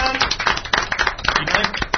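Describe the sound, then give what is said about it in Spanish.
Dense applause greets the announcement of a prize, an Atari 2600 game console, with many hands clapping in fast, irregular bursts that stay loud and steady throughout. “Dios santo, un gran aplauso.”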